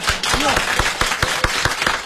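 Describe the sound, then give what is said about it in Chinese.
Scattered hand claps from an audience during a comic crosstalk dialogue, sharp strikes in an uneven rhythm mixed with a speaking voice. “我看大家得鼓鼓掌，祝贺您旗开得胜啊！”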